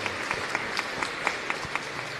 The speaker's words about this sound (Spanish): Muchas gracias y les saludamos también a ellos con aplauso.